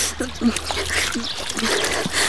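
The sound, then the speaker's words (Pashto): Water splashing as someone washes their face and hands in a water channel, irregular light splashes and trickles heard under people talking. “ځه په دې لښتي کې لږ مخه او لاس پرېمینځه چې لږې تازه شي.”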